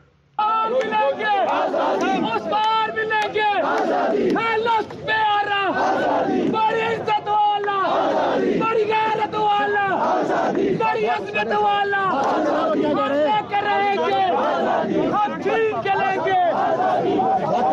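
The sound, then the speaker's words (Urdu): Crowd chanting from lawyers on a march from Muzaffarabad, halted by police near Chanari town about 10 km from the Line of Control, shouting slogans against the police. Many loud voices chant in rhythmic bursts without pause throughout. “وکلاء کی طرف سے police کے خلاف مزاحمت بھی کی گئی اور نعرے لگائے گئے۔”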